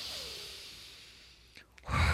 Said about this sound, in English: I want to just invite everyone to take a deep breath right now.